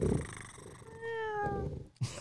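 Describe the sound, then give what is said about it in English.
A person vocally imitates a cat, with low rumbling purr-like bursts around a sustained, tonal, meow-like note in the middle; the voice is fairly loud and steady, ending in a short rumbling burst. “you sound like a cat purring”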